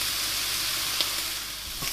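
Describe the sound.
Steak sizzles in a frying pan, a steady, bright hiss with a couple of faint clicks and no voices.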